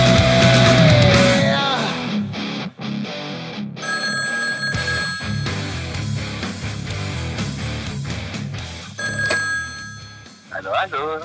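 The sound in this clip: Telephone ringing as an outgoing call is placed from a radio studio: two bursts of bright, layered ringing tone, the first longer, then a shorter one, heard over a continuous busy background.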